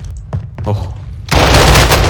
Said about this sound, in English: Dude, I'm getting shot, dude. I need help. I know. How am I getting shot?